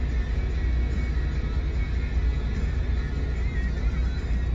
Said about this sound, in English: Runs smooth, it's quiet. Gonna record just a little bit of the drive